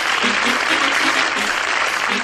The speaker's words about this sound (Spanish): Ahí está, mira, doctor, dale palmas.